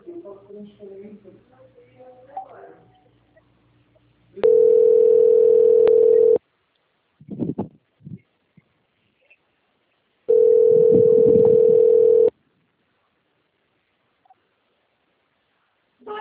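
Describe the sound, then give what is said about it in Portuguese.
Line tone while a phone call is transferred to an office extension: two long, steady, mid-pitched tone bursts of about two seconds each, with people talking before and between them. “Transfere para o ramal da Paulinha, 2047”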